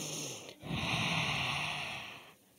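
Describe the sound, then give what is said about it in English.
A deep breath, a long and steady airy rush lasting about two seconds after a brief dip, heard alone without speech. “take a breath with me”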